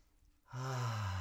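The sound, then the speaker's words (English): A deep inhale while smelling an opened bottle of essential oil at bedtime: a brief quiet, then one long, loud, slightly voiced breath that holds steady to the end. “Opening up the bottle, taking a deep inhale.”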